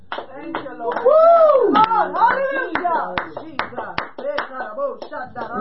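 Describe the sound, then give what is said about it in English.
Congregation clapping hands during a church service, with scattered sharp claps mixed among loud voices that are singing and calling out. “Clap your hands unto the Lord.”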